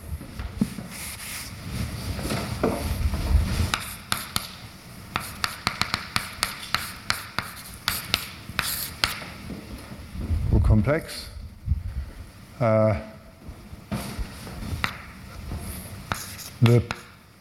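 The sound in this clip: Writing by hand during a mathematics explanation: many irregular scratchy strokes and light taps in quick runs, broken by a few louder bumps, with speech at times.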